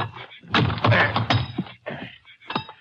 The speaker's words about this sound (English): See if I can pry that lock off. It's a fairly new lock by the look of it.